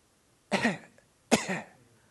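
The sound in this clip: Two harsh coughs from phlegm in the throat, each a broad rasping burst trailing into a brief throaty rattle, separated by a short pause with no talk around them.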